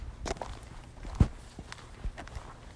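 Footsteps walking along a road: a few soft, faint steps with one sharper footfall near the middle, over low background noise.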